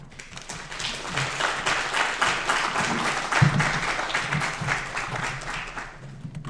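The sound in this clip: An audience applauds to welcome a speaker at a morning talk. The steady clapping swells, holds for several seconds, and then fades.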